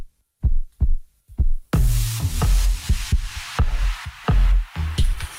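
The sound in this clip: Heartbeat thumps, a few soft low pulses alone at first, then continuing in a steady rhythm beneath a fuller, denser sound layer that joins partway through.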